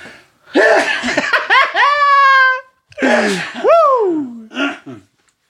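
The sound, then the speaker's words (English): A person sneezing: an explosive noisy burst that slides into a loud voiced tone, then a second sneeze-like burst with a falling pitch and a short final vocal gasp. “Excuse me. Bless me, thank you. And I was trying to get out my words before that sneeze came.”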